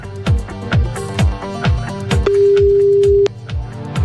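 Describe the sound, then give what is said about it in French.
A single steady phone-line tone, about a second long, sounds while a call is placed to Dijon, laid over a thumping beat of regular low drum hits. “On va appeler une fille. On appelle à Dijon.”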